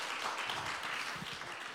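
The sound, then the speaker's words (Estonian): A church audience applauds to welcome newcomers. Faint, soft clapping from a group holds at an even level for about two seconds and tapers slightly at the end. “me tervitame teid , aplaus uustulnukatele , jah .”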